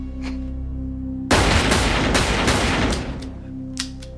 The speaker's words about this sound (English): Four shots.